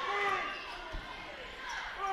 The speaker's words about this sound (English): Carrington on the dribble up the right side. Crossover dribble, gets a screen